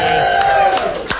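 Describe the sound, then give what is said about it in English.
Short burst of cheering and whooping from people in a radio fundraiser call center, loud excited voices that hold briefly and then trail off. “Everybody cheer.”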